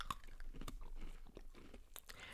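Crunchy chewing of round orange-flavoured biscuits, a quiet, continuous run of many small crisp bites and crunches with no pauses.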